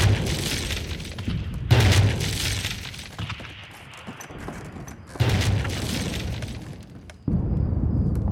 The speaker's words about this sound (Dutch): De granaten vallen met tientallen tegelijk, ook in de omgeving van de boerderij.